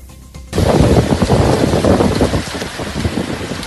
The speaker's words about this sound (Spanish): Este es el sonido de la intensa tormenta que ha sorprendido esta noche a los vecinos de Binéfar.